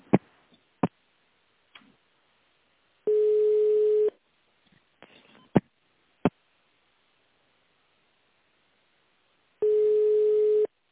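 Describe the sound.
Telephone ringback tone plays while a call is transferred, as two steady mid-pitched tone bursts about a second long, separated by a long gap broken by a few sharp clicks.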